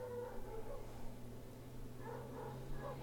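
Faint puppy yips and whimpers come through in a few short, soft bursts over a low, steady background hum.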